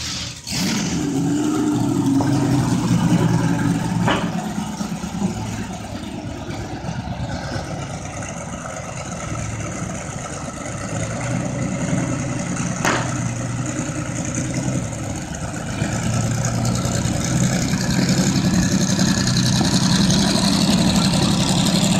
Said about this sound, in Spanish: Además, es el coche original, o sea que sonaba o suena así.